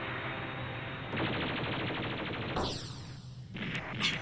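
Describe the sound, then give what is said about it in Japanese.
Warship guns fire a bombardment: a dense, sustained barrage of rapid, rumbling blasts that stays fairly steady in loudness, with a sharper, louder hit near the end. “全門、砲撃準備。キャリアよりも本体を狙おう。 連絡、アストリアダブル2、全門砲撃準備。”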